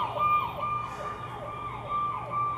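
A police car siren wails as it passes along a busy night-market street in Taipei, its tone sweeping down and back up in quick, regular cycles over a low background hum.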